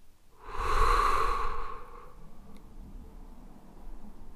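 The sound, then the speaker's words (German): One deep, full breath swells loud and breathy for about a second and a half, then settles into faint, quiet breathing. “Einmal noch tief einatmen, so richtig so tief Luft holen. Innehalten und komplett ausatmen.”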